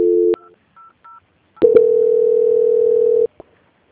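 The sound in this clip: Telephone line tones during a call transfer: a steady tone, a few short beeps, then a long, steady mid-pitched tone lasting over a second. No one speaks.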